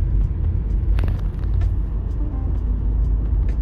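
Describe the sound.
Car engine rumble as the vehicle pulls away first off the line in an informal street race against another car, a steady low drone with a few faint ticks and no voices.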